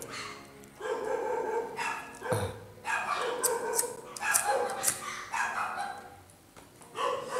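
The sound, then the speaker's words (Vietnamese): A neighbour's dog barks repeatedly in loud, harmonic bursts separated by short pauses, with some higher yips mixed in. “Chó cắn ma cái gì em?”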